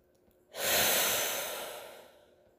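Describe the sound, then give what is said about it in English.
One deep breath taken alone after a brief quiet pause, a breathy rush that swells quickly, then slowly tapers and fades over about two seconds. “So let me take a deep breath now.”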